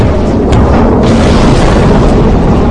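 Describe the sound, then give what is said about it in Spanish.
A loud, heavy roar from an armour-piercing shell exploding inside a ship after a fuse delay of under a second. The dense, rumbling blast noise holds steady throughout, with no separate hits. “Tras un retardo de menos de un segundo, el proyectil explota dentro del barco para eliminar al mayor número posible de personas.”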